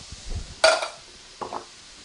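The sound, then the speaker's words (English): Metallic clinks as canned tomatoes are added to a crock pot of chili. Two short clanks sound alone, the first louder than the second. “You can put all the tomatoes in, into the crock pot.”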